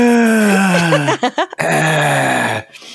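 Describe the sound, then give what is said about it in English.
A raspy, crackling groan of breath from the Nurse killer in the horror video game Dead by Daylight: two long, falling moans with a broken, stuttering stretch between them, loud and alone. “Smithson, the nurse from Dead by Daylight. And she can teleport around the map. And you hear this like this crackled breathing from her.”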